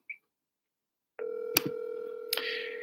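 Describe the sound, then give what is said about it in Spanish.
Telephone tones sound as a number is dialed: a short beep, then a pause, then a steady tone broken by a couple of sharp clicks. “a ver si me contestan. Estoy llamando a, estoy llamando a Benito.”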